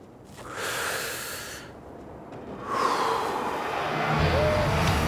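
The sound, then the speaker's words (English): A man takes a big puff on a cigarette: a long, breathy draw of air, a brief pause, then a longer airy breath that carries on to the end. “He takes a big puff of tobacco smoke.”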